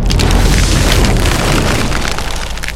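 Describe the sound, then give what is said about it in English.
Heavy booming roar as a massive pile of rubble in temple ruins blasts away, loud and continuous throughout with a dense, crackling texture, easing only slightly toward the end. “A massive pile of rubble begins to move and then suddenly blasts away,”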